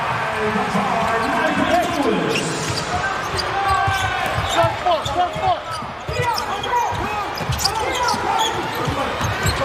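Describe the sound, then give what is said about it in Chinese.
A basketball being dribbled on court during a men's international tournament game, with quick repeated bounces under a commentator's steady talk and a constant crowd hum. “现在正在运球的，上半场比赛从右向左攻的，这就是卡塔尔队。”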